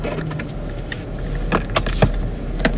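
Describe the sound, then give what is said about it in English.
Metallic key jingles and a few small clicks as a car key slides into a minivan's ignition, heard faintly over a steady low hum. “Brenda Sanders sat in the driver's seat of the minivan and slid the key into the ignition”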